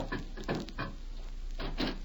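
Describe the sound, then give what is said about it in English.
A door is unlatched and opened at night: a few dull clunks and rattles at uneven intervals, moderately loud over a steady low hum, with no talk. “Open this door. Just a second now. I'll have it open in a jiffy.”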